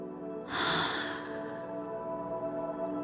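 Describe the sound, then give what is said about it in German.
A breath held in is let out in a single soft, airy exhale lasting about half a second, over quiet, steady background tones. “Halte die Luft und halte das Grinsen und mit dem Ausatmen wieder entspannen.”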